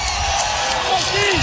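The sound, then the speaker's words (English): Loud crowd cheering at a Nebraska college baseball game, a dense, sustained roar with whoops and yelled voices rising out of it throughout. “Loudest cheer of the night. Yep. It gives you an idea of what 13 means to this crowd”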